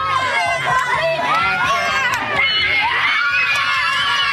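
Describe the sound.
Selkirk students cheer and shout to welcome Manitoba's Premier, a loud, unbroken crowd roar of high, excited young voices with scattered screams throughout.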